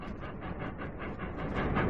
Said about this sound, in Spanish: El tren 801 circula sin control.